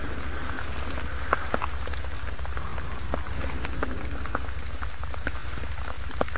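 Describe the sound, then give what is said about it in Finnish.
Rain falls steadily on a pitch-dark forest at night during a night-time forest race, a soft continuous patter with scattered sharper drop ticks, fairly faint and uninterrupted. “sade. Se jatkuu edelleen”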